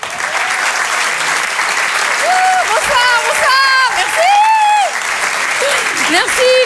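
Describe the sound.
Comedy club audience applauds loudly and steadily as a comedian is welcomed on stage; the dense clapping runs throughout, with voices calling over it.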